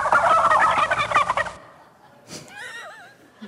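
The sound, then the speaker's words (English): Turkey gobbling played as a university's stadium mascot sound: a loud, rattling burst lasting over a second, then a short pause and fainter warbling, whistle-like calls. “This Blacksburg University's mascot looks like a turkey, but they want you to know it's not necessarily a turkey. Even if you hear this sound in the stadium, remember, it's not a turkey.”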